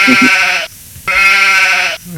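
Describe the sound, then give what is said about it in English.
Sheep bleating as a sound effect: two long, loud, wavering bleats, each a little under a second long, separated by a short pause. “anytime we talk about Trump, I gotta play the sheep.”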